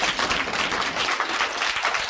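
Audience clapping at a Brahma Kumaris spiritual program: dense, steady applause from many hands, an even rattle that holds for about two seconds with no voices over it.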